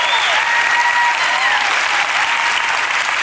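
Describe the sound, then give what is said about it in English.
Steady audience applause welcoming two young athletes and their mother onto a stage. The clapping is dense and continuous, with no pauses and no talk. “Come on, we can give it up for them.”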